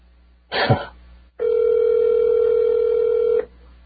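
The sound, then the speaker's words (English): Ringback tone on an outgoing telephone call: a brief noisy burst, then a single steady, fairly loud ring tone lasting about two seconds before it stops. “Must be busy. No, that's a ring.”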